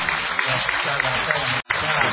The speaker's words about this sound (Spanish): Deje que me aplaudan, más fuerte, carajo. Más fuerte.